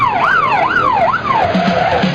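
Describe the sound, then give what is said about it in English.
A siren wails in repeated rising and falling sweeps, loud and continuous, with a few short low tones near the end. “the siren was your clue”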